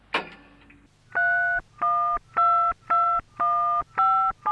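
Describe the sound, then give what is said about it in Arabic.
A phone number is dialed on a telephone keypad: a brief click, then seven steady touch-tone beeps in an even rhythm. The last tone is cut short. “وعلى الفور اتصلت زينب بوفاء فقالت لها بالتليفون”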